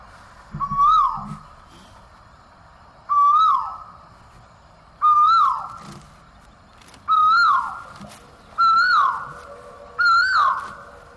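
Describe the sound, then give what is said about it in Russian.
Cuckoos calling in Vrindavan, sweet and insistent: six clear, whistled calls that rise and then fall, repeating about every two seconds over a low, quiet background. “Да, это вриндаванские кукушки. Они не совсем похожи на русских. У них гораздо более сладкие голоса. И очень такие настойчивые,”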